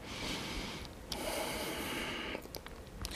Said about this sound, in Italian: c'è sempre la respirazione, che sarà espiro, inspiro, espiro, inspiro.